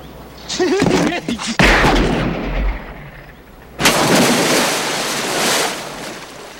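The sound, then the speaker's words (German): Gunshots ring out in a film scene, two loud, sharp blasts a couple of seconds apart, each followed by a rumbling, noisy tail. “Natürlich greift das Scheusal zur Waffe und natürlich kann ihn Dirty Harry in dem Moment mit Fug und Recht erschießen.”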